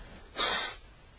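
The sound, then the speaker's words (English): A single short sneeze from a person sneezing after a day of strong wind and dust. It is a sharp, breathy burst with no other sound around it. “I still am sneezing and putting up with that 100-mile-an-hour wind yesterday and dust.”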